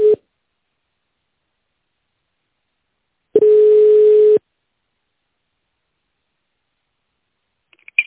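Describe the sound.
Telephone line tone while a call is being transferred: one steady mid-pitched tone lasting about a second, framed by brief tone fragments at the start and end and long stretches of silence.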